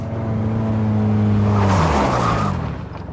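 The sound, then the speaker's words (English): A car brakes to an abrupt stop on a highway shoulder. Its loud engine drone drops steadily in pitch as it slows, with a broad rushing tire noise, then fades out at the end. “The car comes to an abrupt stop along the shoulder of the highway.”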